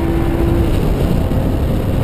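A racing car driving flat out on a circuit, a loud, unbroken engine and wind roar with a steady tone early on that drops away, continuing evenly to the end.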